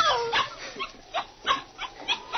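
A dog whimpers outside a hotel door. A few short, high whines and yips come in uneven bursts, faint and thin, with no voices over them.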